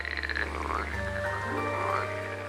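A toad croaks at sunset, a faint string of low throaty croaks mixed with a few higher warbling calls, soft and steady over a quiet droning background.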